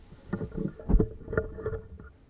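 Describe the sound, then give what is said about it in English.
A microphone being adjusted, with several dull bumps and rustling handling knocks at an uneven pace, moderately loud against a low background. “Hang on, I'm going to alter your microphone here a second. Everybody just bear with me.”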